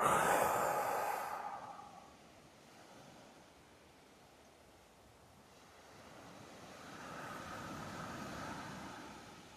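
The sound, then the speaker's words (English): A deep breath in and out during a guided breathing exercise: a loud, airy rush at the start that quickly fades, then a second, softer and longer breath swelling later. There is no talk. “Okay, take a deep breath with me.”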